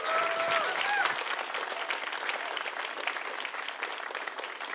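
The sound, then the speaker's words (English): Audience applause welcoming a pastor up to deliver the message at a church service: dense, steady clapping that fills the whole clip at a fairly loud level, with a few brief cheers early on. “Let's put our hands together and welcome Pastor Josh Holman as he brings the message.”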